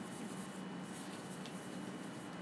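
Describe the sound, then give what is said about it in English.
A pen drawing a diagram on a board makes a steady, dense scratchy rubbing that continues without pause and holds an even loudness throughout. “Now, let me draw another diagram and see who agrees with that one.”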